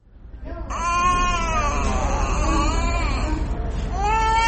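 A malnourished child cries in a small hospital room, a loud, sustained, high wailing cry that breaks off briefly before another strained wail begins.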